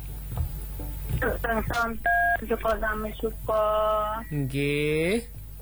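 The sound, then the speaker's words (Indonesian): Telephone keypad dialing, a quick, uneven run of short electronic beeps followed by a few longer steady tones, with voices present around them. “Oh, telepon dulu kalau gitu nggih.”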